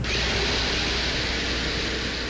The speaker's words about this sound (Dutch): En dit is het geluid van boren in de Venusbodem.